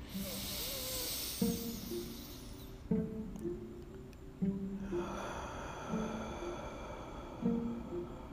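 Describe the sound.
Deep breathing in through the nose and out through the mouth: soft, hissing breaths with a long pause between them, over faint tonal pulses that repeat at a regular pace.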